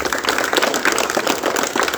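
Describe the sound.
Audience applause welcoming a headmaster at a 75th Independence Day celebration, a dense, steady burst of clapping filling the whole moment at an even loudness.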